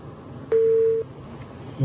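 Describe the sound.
A telephone busy tone sounds after a phone call disconnects: a single loud, steady mid-pitched beep lasting about half a second, heard alone on a quiet line.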